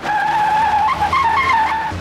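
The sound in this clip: Car tires squeal as the car swerves: a loud, sustained high-pitched screech with a wavering pitch that runs for about two seconds before easing off.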